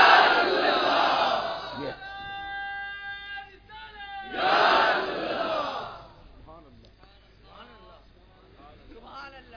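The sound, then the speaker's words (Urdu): A large crowd roars the religious slogan Nara-e-Risalat in two loud unison bursts, with a single man's drawn-out call between them, and a man speaks afterward. “یہ شان رسالت کے محافظ پاسبان صحابہ کی عادت ہے، اور ان کا طریقہ ہے، ان کی پہچان ہے، ان کا تشخص ہے نعرہ رسالت.”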